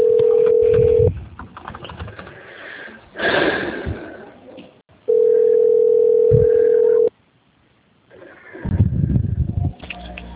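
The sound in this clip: Telephone tones during a call transfer: two long, steady mid-pitched beeps, the first about one second and the second about two, separated by quieter rustling and line noise.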